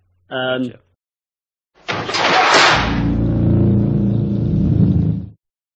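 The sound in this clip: Car engine roars up and drives away at the end of a horror film, a loud sustained rumble that swells and then holds steady before cutting off, preceded by a brief separate tonal sound.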